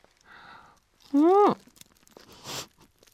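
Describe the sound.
A bite into crispy Gindako takoyaki with a hard, crunchy shell gives a short crunch after a drawn-out exclaimed voice, with faint mouth sounds around it.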